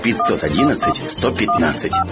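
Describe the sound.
Telephone keypad tones as a number is dialed in a taxi advert: several short two-tone beeps come in quick succession beneath a person talking.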